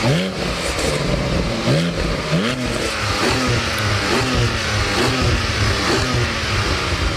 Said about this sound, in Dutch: Een Porsche 718 Cayman GT4.